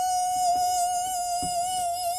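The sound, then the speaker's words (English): A steady, piercing electronic whine, demonstrating ultrasonic noise, holds one constant tone with bright overtones for about two seconds, loud and unbroken with no voices. “So that's what ultrasonic sounds like for those people who can't hear it and don't know.”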